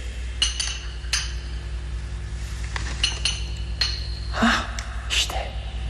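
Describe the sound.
Glass bottles clink against each other inside a poison cabinet as someone rummages for one bottle, making a series of sharp, bright, irregular chinks over a low steady background hum.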